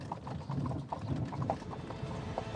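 Horse hooves clip-clop steadily beside a rattling, creaking mechanism as a royal horse-drawn carriage travels along a forest road. The rhythm stays faint and even, with no talking.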